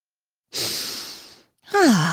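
A deep breath drawn in through the nose as a nasal strip relieves congestion: a long, airy inhale, a brief pause, then a voiced sigh that falls in pitch.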